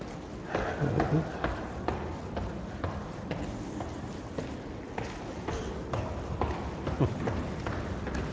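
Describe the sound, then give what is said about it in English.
Footsteps walking up the stairs inside a library: many soft, regular steps patter in a steady rhythm, with faint scuffs and taps over a low background hiss. “But I'm going to walk up the stairs to the third floor because that's the healthy thing to do.”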